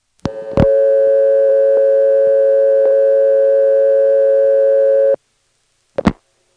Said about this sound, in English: Let's dial a 6. And then try to dial a digit that's a vacant level.